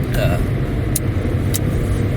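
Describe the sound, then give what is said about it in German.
Car cruising at about 124 km/h on a motorway with cruise control engaged, giving a continuous low road and engine rumble with a broad hiss of wind and tyre noise at steady loudness throughout. “Guck mal, wir dürfen hier 120 fahren. Ich fahre 124 mit Tempomat.”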